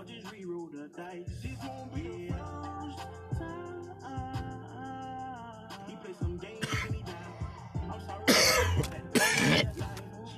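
Someone breaks into a coughing and choking fit. A few harsh, rough coughs burst out loudly over steady background music with a bass line.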